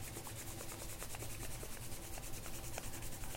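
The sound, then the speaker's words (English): Palms rub together in a soft, continuous, dry swish that stays faint and steady throughout, with no voices. “And if you like, you can rub your palms together. It's nice and warm.”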